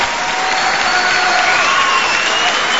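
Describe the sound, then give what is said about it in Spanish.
An audience in San Nicolás, Buenos Aires province, applauds: a dense, steady wash of clapping from many hands that holds at an even, fairly loud level throughout, with no clear voice over it. “Sí, pueden aplaudir a San Nicolás si quieren.”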